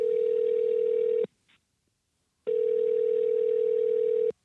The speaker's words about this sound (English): All right, dial up their number. Let's call them up.